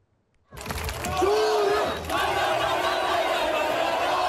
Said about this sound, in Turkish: Çorum Futbol Kulübü'nün Süper Lig'e yükselmesinin ardından sokaklarda kutlamalar yapıldı.